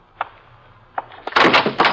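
A door opens as someone comes in: a few soft clicks and knocks, then a louder burst of rattling, scraping noise, with no talk.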